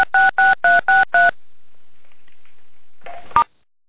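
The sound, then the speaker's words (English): Telephone keypad dialing tones in the background of a phone call: five evenly spaced beeps in quick succession, a pause of nearly two seconds, then a brief further tone ending in a sharp click. “Just had someone dialing a number in the background.”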